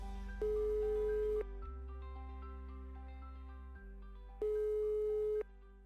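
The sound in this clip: Phone ringing tone heard while calling a sister: two steady, buzzing ring bursts about a second long, separated by a few seconds of quiet waiting, over a soft continuous backing sound.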